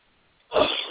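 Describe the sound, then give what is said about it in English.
A single loud sneeze bursts out suddenly after near silence. It is a harsh, breathy blast that holds strong to the end. “that is the worst thing you can do on a radio program is have to sneeze, but I couldn't help it”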